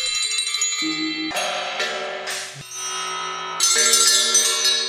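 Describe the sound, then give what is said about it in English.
Ringing tones from struck metal bells, used as music built on the resonance of earth's metals: several overlapping strikes with long shimmering sustains and low humming partials, layering up and swelling louder toward the end. “I've always been attracted to bell-like sounds.”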